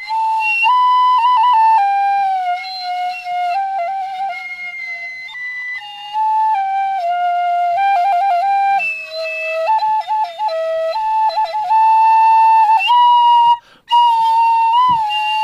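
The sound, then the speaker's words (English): Bamboo flute playing a sustained, breathy melody of long held notes with some quick ornamental turns, loud and alone without voices, with a brief gap near the end. “the aerophones, like this flute here. That's a bamboo flute, no?”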